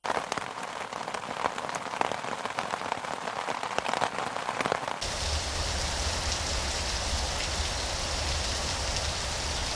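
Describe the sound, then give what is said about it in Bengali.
Steady rain with gusty wind hisses densely throughout. Partway through, the texture shifts to a smoother, fuller downpour over a low rumble. “অবশ্য বেশিক্ষণ অপেক্ষা করতে হয়নি তাকে, শুরু হয়ে গেল বৃষ্টি আর সেই সাথে দমকা বাতাস।”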